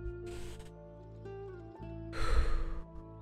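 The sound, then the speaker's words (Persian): Deep breathing during a morning energy meditation: two breathy rushes of air, a short one early and a longer, louder one later, over a soft, sustained tonal background. “چند دم و بازدم عمیق انجام میدیم دم بگیرین و بازدم دم میگیریم”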